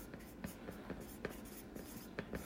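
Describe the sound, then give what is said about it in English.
Pen or pencil writing by hand: faint, soft scratching strokes repeat in an uneven rhythm, many short marks in a row. “I'm just going to write”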